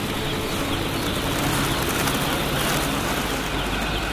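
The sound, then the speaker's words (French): Many chicks peep in a dense, continuous chorus as batches of them are dropped onto the floor of a crowded poultry house. The peeping stays loud and steady throughout, with no talk. “Des paquets de poussins atterrissent sur le sol. En fait, vous jetez les poussins.”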